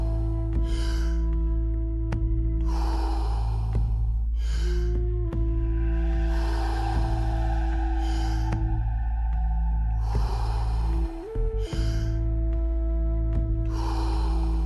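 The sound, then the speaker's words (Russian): Deep inhales and releases of breath during a fitness workout, several long breaths rising and falling over steady background music. “Полный вдох и отпускаем.”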